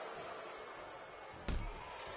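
A heavy slam as a wrestler drives an opponent onto the ring mat with a flex slam during a pro wrestling match. It lands as one short, booming thud over a steady, noisy background.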